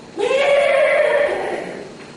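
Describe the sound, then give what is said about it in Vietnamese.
A goat bleats once as it is led home to the head of a lane, a loud, drawn-out call that rises at first and then holds steady before trailing off. “Bà ấy mới ra con về, con dê về tới đầu ngõ nó kêu”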